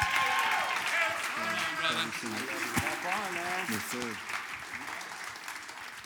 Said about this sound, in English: Will you stand to your feet, put your hands together, and welcome Pastor Clay Ramirez